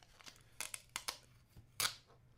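Tape tearing as a taped package is ripped open, in a few quiet, sharp bursts of ripping and crinkling, the loudest rip coming near the end.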